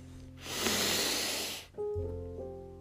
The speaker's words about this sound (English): Taking a deep breath with me.